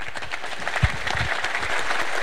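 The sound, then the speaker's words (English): A crowd applauds Congresswoman Pelosi at a public event on energy policy. The clapping is loud and dense, with a brief low thump early on, and it grows steadier and fuller in the second half. “let's give one more round of applause, if we would, to Congresswoman Pelosi for joining us here today.”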